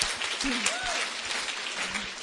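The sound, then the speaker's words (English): Audience applause, a dense, even clatter of many hands clapping that fills the whole stretch, with a voice briefly audible over it. “that is worth a clap”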